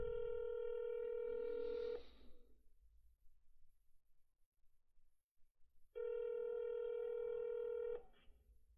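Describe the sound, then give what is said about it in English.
An outgoing telephone call rings on the line: two long, steady electronic ring tones of about two seconds each, separated by a quiet gap of roughly four seconds, with no voices. “let me see if I can get you on the line, Johnny boy. I got your number right here.”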